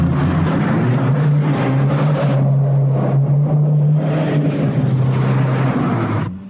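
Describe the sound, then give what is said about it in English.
A Land Rover's engine roars as it speeds off, a loud, steady low drone that holds throughout and eases slightly at the end. “Mike and Lewis jump into the Land Rover and speed off in a hail of bullets.”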